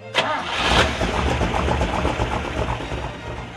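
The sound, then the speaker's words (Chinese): A car engine starting: a quick cranking burst at the outset gives way to a steady, fairly loud running rumble that holds to the end. “甘伯伯打算开车去兜风。”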